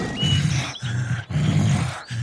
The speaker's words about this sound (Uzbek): Kaltak zarbidan a'zoyi badani zirqirayotgan sher esa yo'lbarsga baqiribdi.